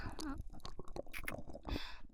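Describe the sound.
Wet, close kissing with soft lip smacks and squishy clicks, mixed with a brief breathy vocal murmur.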